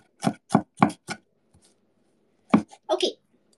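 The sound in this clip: A knife chops cilantro for rice in four quick, sharp strikes at an even pace. After a pause of over a second, a few more chops follow.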